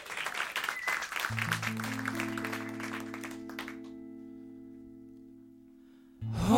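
Audience applause welcomes the band the Hart Strings at WFPK's Live Lunch, a clapping wash that fades out over about four seconds as held instrument notes ring in, before music starts at the end.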